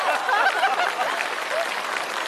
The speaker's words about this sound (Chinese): 有人鼓掌吗？